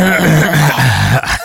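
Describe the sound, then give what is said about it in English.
Someone clears their throat in a single drawn-out, rasping, low voiced rumble that ends with a short catch, loud and close. “Just clearing the throat.”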